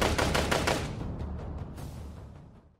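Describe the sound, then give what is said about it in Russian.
Rapid automatic gunfire fired on a command to shoot, a loud dense rattle of shots through the first second that trails off into a fading, rumbling wash. “«Огонь!» – скомандовал Сергей.”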